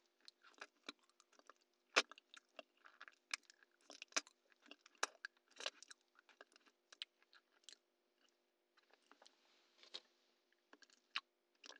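Noisy chewing of chewy, rubbery food: many soft, wet, irregular squelches and clicks, faint and close, with no talk.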